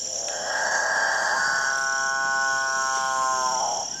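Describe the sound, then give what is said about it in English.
Male capuchin birds call in a dawn chorus in the Guyanan jungle. One long, droning, mooing call rises out of a steady background hum and holds for a couple of seconds before fading. “A herd of nervous cattle? A distant motorboat? It's the dawn chorus of male capuchin birds, one of the most bizarre members of one of the most bizarre bird families in South America”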